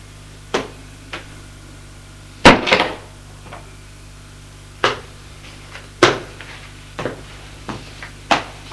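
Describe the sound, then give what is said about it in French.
A door being opened amid a string of sharp knocks, clunks and clicks at irregular intervals, with one heavier, fuller thud near the start standing out from the rest. “Elle ouvre la porte.”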